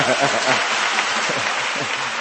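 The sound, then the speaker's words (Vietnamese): Audience applause follows an answer at a church gathering: a dense, steady wash of many hands clapping at even loudness throughout, with faint voices mixed in. “cảm ơn bạn, một tràng pháo tay.”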